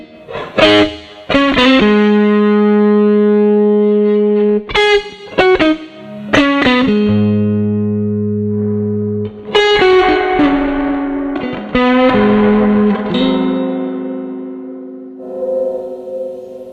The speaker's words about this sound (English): it's a really wet sounding reverb.